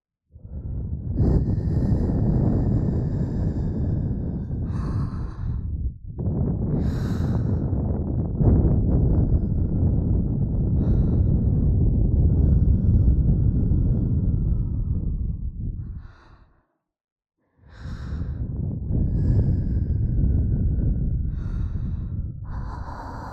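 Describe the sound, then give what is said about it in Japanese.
Breath blown close into the listener's ear: long, loud, airy exhales that run on steadily, broken by a few short pauses. “お耳に息をかけていきますね。”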